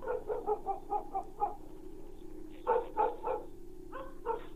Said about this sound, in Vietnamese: Đâu đó văng vẳng từ bên làng, tiếng chó cắn ma cứ vang lên.